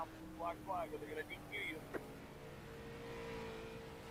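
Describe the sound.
Race car engines from a racing video game, a faint, steady low drone running beneath people talking.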